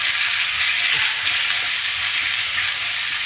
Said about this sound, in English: So now I'm just tossing the vegetables around a little bit.